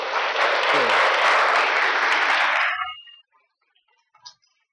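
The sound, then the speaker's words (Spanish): Applause from a church audience during a sermon, loud dense clapping for about three seconds that then stops abruptly, leaving near silence with a faint brief sound near the end. “Un aplauso para él.”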